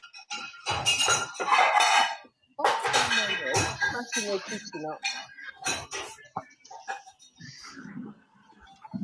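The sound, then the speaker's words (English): Plates clatter and clink as they are loaded into a dishwasher, rattling in irregular bursts under people talking. “I'm putting them in the dishwasher.”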